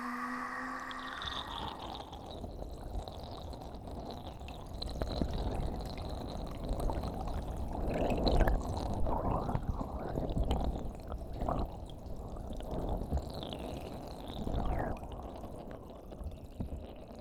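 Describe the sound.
Water is poured slowly in a soft, continuous trickle with gentle liquid gurgles and a few brief drips. It stays faint and steady throughout, with no talking.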